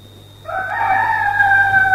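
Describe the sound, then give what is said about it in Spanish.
A rooster crows once in a single long, drawn-out call that starts abruptly and carries loudly to the end, over a faint steady hum. “Y al instante cantó un gallo.”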